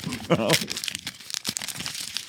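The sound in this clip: Paper tearing and crumpling as a painting is ripped up: a short burst of dry crinkling and ripping, with a brief voice near the start, followed by scattered crackling bits of torn material.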